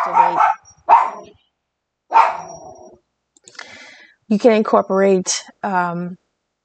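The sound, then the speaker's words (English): A dog barks in a few loud, rough bursts, then a person starts talking once the barking stops. “The dog is barking in the background, so I had to take a little time out.”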